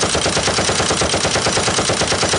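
Rapid automatic gunfire rattles as police burst in and fire on a stranger, a steady, evenly spaced stream of loud shots with no pauses.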